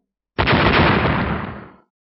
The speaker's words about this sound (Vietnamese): Những tiếng nổ vang dội đất trời, hư không nơi hai vật đụng vào nhau thình lình vỡ vụn